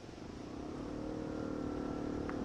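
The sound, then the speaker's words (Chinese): A large-displacement motorcycle engine roars as a low, steady, humming drone that swells slightly in loudness at the start and then holds, fairly faint. “忽听到大排量摩托车的轰声，真如雷鸣一般自山脚处一路扬上来”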